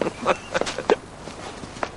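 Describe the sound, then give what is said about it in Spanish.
Footsteps of a girl running while other people walk, heard as a few soft, irregular taps and scuffs at moderate to low volume. “La niña corre mientras ellos pasean.”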